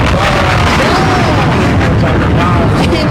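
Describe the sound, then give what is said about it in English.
A loud bomb explosion sound effect, played as a dramatic drop during a lively live stream, fills the whole clip as a dense, sustained booming roar with faint tonal sweeps inside it. “I'm going to drop the bomb.”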